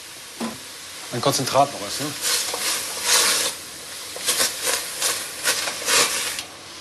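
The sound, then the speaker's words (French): Concentrated tomato purée hits a sizzling pan for a sauce, giving repeated bursts of hissing and scraping, with a short voiced sound early on. “j'ajoute un peu de purée de tomates. Comme elle est très concentrée, elle va donner encore plus de caractère à la sauce.”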